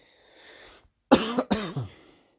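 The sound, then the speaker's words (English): A harsh barking cough from someone at the tail end of an illness: a few rough, loud bursts in quick succession after a faint breathy hiss, with no talk. “You can hear there's kind of, I've got a barking cough at the moment.”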